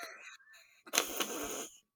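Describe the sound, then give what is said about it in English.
A huge, sharp intake of breath: a loud, rushing gasp of just under a second, faint overall, with a few softer breathy sounds before it. “You just took that huge breath”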